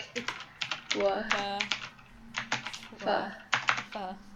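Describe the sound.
Computer keyboard typing as someone writes notes: a quick, irregular run of clicks, with a voice sounding over it.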